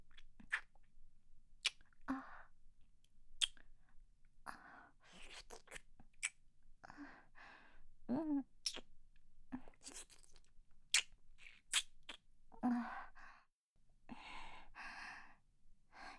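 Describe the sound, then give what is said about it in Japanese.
Close, wet ASMR mouth sounds of nibbling on an earlobe: many soft smacks, nibbles and small crunchy clicks come in irregular bursts, broken by audible breaths and sighs, with brief quiet gaps between. “耳たぶも食べちゃおう。”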